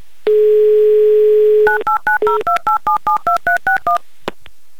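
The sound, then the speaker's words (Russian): A telephone dial tone gives way to dialing DTMF keypad tones as a game show calls a contestant. A long steady tone is followed by a quick, even run of many short beeps at shifting pitches, then a faint click. “Надеемся, что именно так вы и поступите, поэтому я набираю ваш номер.”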